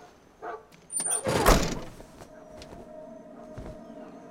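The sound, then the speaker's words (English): A van door is shut, a faint knock followed by a broad, rumbling slam about a second long, then a quiet steady hum. “He smiles and hops in his van, then shuts the door behind him”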